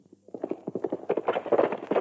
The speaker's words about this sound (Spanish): ¡Arre, arre, caballo!